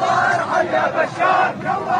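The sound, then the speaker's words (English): Hundreds of demonstrators chant in unison in Sweida's main square, a loud, rhythmic mass of shouted voices rising and falling in regular pulses. “This month, as this video shows, a crowd of hundreds of demonstrators chanted in unison in Sweida's main square.”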